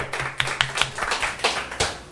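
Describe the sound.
Audience hand clapping, fairly faint and brief, a handful of distinct claps at an uneven pace for about two seconds rather than full applause.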